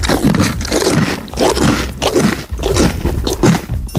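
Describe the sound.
A pony chews loudly, probably on bread, with a steady run of crunching, grinding bites in a rough, irregular rhythm, repeating many times without a break.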